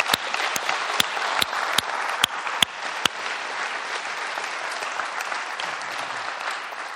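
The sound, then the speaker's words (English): Church audience applauding the musicians: broad, steady clapping from many people, with several sharp, loud individual claps standing out over the first three seconds before the applause settles into an even, sustained patter. “I think it would be fun if it's allowed that we ought to just clap for their talent and for their hearts and things.”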